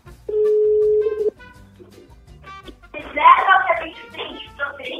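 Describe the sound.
A telephone being dialled to place a call: a steady dial tone holds for about a second, a few faint short tones follow, and then a louder burst of voice and noise.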